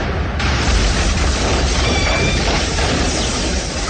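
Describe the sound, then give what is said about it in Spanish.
A burning pickup truck exploding as it slams into a ray gun: a dense, loud, continuous roaring blast that stays at full force for about four seconds without a break. “La bola de fuego en que se ha convertido estalla cuando impacta contra el lanzarrayos.”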